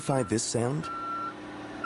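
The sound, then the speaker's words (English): Forklift reversing beeps, a thin high steady tone that follows a brief spoken question. “To the business owner who financed this forklift through Chase, this is the sound of his business operation moving forward because he can now do more in a day.”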